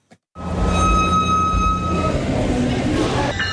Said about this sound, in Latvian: Rīts Santa Klaritas stacijā. Tā ir aptuveni 40 minūšu braucienā no Losandželosas centra.